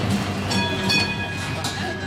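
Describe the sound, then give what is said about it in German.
A Vienna tram runs on its rails toward the Central Cemetery with a steady, dense rumble and thin, high metallic whines held throughout. “Mit der BIM, wie die Wienerinnen und Wiener ihre Straßenbahn liebevoll nennen, geht es in den Südosten der Stadt zum Zentralfriedhof.”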